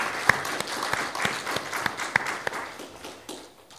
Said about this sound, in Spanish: ¿Podemos darle un aplauso a ellos? Let's put our hands together for them.